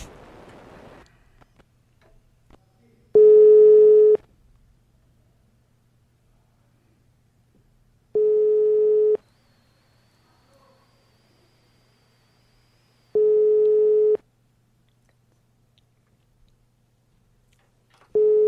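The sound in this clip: Telephone ringback tone on an outgoing call line: four long, steady, mid-pitched beeps evenly spaced by several seconds of near silence, the last one cut off.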